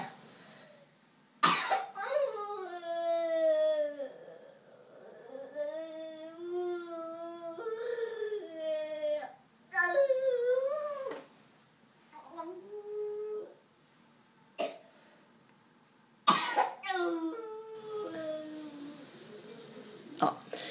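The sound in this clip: A person vocally imitates a sick child's howling cough: wavering, wolf-like howls that rise and fall in pitch, broken by a few sharp, harsh cough bursts. The voice is loud and heard alone, with no talk over it.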